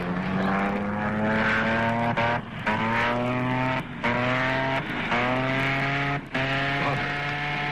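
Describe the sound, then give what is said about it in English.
A small propeller plane's engine drones in a steady, low harmonic hum, cut by a few brief dropouts. “You're supposed to be up there flying that plane.”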